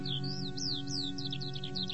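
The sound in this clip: Skylark song: quick, bright chirps and whistled notes with rising and falling slurs, pouring on without a break over a steady low hum.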